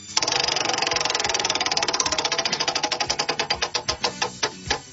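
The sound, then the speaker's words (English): A prize wheel spun by hand, its clicker ticking rapidly and loudly at first, then the clicks spread farther apart as the wheel slows, ending with a few widely spaced ticks. “All right, I'm going to step up. I'm going to spin this wheel.”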